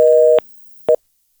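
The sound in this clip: Telephone busy tone after a dropped call: a steady, loud electronic tone that cuts off, then returns as one short burst after a pause.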